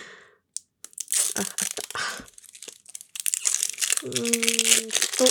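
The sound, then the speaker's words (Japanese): Stiff plastic packaging wrap, too hard to peel, crinkles and crackles as it is worked open: a string of sharp, uneven crunches with short pauses, growing denser and more continuous toward the end. “ちょっとガチャガチャ言いますね。梱包してるビニールが硬すぎて、剥けないです。”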